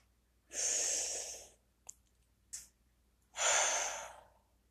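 Deep, slow breathing during a guided breathing and affirmation exercise: two long, airy breaths separated by a pause holding a couple of brief soft clicks, with no talking.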